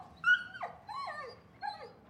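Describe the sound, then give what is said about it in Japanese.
A white mixed-breed puppy whimpers in three thin, high whines, each sliding downward in pitch, soft and alone with short pauses between them. “太郎は白い子犬です。雑種ですが、とても可愛くて僕たちにも懐いていました。”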